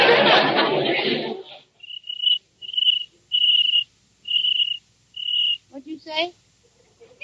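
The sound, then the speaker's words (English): A cricket chirps in a house: five clear, high-pitched trills in a steady rhythm, following a voice speaking at the start, with a brief voice again near the end. “Oh, listen. There's a cricket in the house.”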